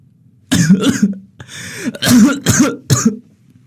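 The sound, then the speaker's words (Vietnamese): An angry man breaks into a fit of harsh coughing, several loud rasping coughs in quick bursts with a wheezy breath between them. “Bố tôi giận quá, lại lên cơn ho khụ khụ.”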